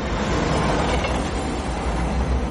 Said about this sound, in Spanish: El tren pasa de largo.